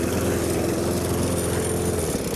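A lawn mower drones steadily while mowing the grounds around a pond, its engine hum constant and unbroken throughout, with no talk over it.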